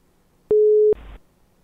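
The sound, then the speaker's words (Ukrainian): A telephone ringing tone while a call is dialed: a single short, steady electronic beep, followed by a brief burst of hissy line noise, with no voices. “Зараз попробую набрать е, Одеську хунту. Він зараз стріме. Чи візьме він трубку, чи ні?”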